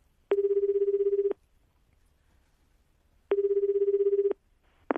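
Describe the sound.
Ringing tone of an outgoing telephone call to a family home: two buzzing one-second tones separated by about two seconds of quiet, with a third tone just starting at the end. The tones are loud and steady, with no voices.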